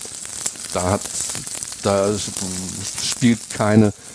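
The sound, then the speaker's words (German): Roast beef sears in a hot pan, turned so every side browns, giving a steady crackling sizzle throughout while a person talks over it. “Dann wende ich das, dass es eben von allen Seiten entsprechend angebraten wird. Das ist ganz wichtig, um die Röstaromen zu bekommen.”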